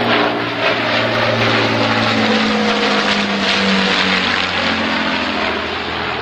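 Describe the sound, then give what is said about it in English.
Engines of a Lancaster heavy bomber: a continuous, loud, droning roar with a low throbbing hum underneath, steady throughout with no talk. “At the moment, the Lancaster is the finest heavy bomber operated by the United Nations.”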